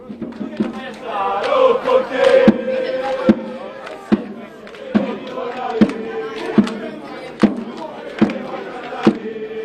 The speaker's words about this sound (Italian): il nostro Martino Liuzzi, Martino Vinci, chiedo scusa, ci fa rivedere proprio con le immagini la tifoseria rosso-blu.